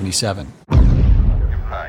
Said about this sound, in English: the West Coast missile detonates